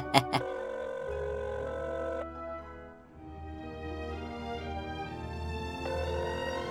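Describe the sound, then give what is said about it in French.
A telephone ringing effect marks a telepathic call: two sharp clicks open it, then sustained, fairly faint ringing tones carry on steadily without any talk. “Je vais appeler mon maître. Et à Berlu de se livrer ainsi à un appel télépathique, bien sûr.”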